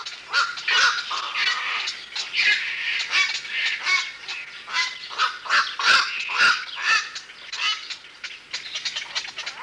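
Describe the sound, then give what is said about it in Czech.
Black-crowned night herons calling from a breeding colony on an island, many loud, harsh croaking calls that overlap in a dense, continuous chorus with no voices. “Nahrávka hlasů kvakošů nočních neměla chybu.”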